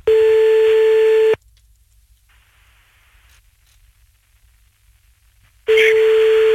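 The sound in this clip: Telephone ringback tones on a call back: a loud, steady, pure tone, then about four seconds of near silence, then the same tone sounding again.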